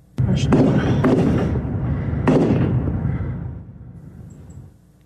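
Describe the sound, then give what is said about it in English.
Sharp gunshots from a large rifle fired by a young man during an active shooter incident near a burger restaurant in Twin Falls, Idaho. Two loud bangs ring out with a few smaller cracks and long fading tails, under a voice talking. “This video just into our newsroom shows a young man shooting in the area with a large rifle.”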